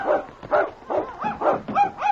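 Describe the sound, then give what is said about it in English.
Small dog barking and whining at a burning cabin, giving a run of short high yelps and whimpering cries at an uneven rhythm, with no voices. “The little dog's trying to get inside.”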